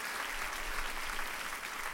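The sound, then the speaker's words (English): Congregation applauding a pastor in a church service, a steady, fairly soft wash of many hands clapping that continues evenly from start to finish. “Give God another round of applause for Pastor Dan.”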